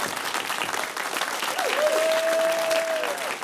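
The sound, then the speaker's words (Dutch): A theater audience keeps applauding after a stage performance as the cast returns for a bow. Thick, continuous clapping stays loud and even from start to finish. “Hé, ze klappen nog steeds.”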